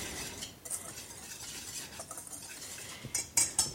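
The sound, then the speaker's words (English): A whisk stirs ingredients together in a bowl for strawberry drop biscuits, making soft, faint scraping and swishing strokes, with a few sharper clinks against the bowl near the end. “Now we need a whisk. And just whisk that together.”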